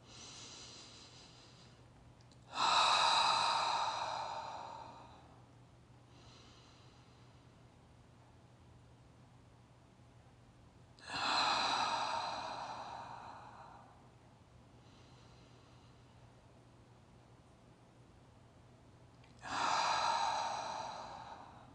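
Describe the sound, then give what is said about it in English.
Three slow, deep breaths are drawn in through the nose and let out through the mouth. Soft, long nasal inhales lead into louder, airy exhales that fade away, all quiet and evenly spaced. “And I'm going to take a few deep breaths in through my nose and out through my mouth.”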